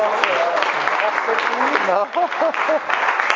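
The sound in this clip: Audience applause at the end of a question session, steady clapping throughout, with a voice speaking over it, clearest in the second half.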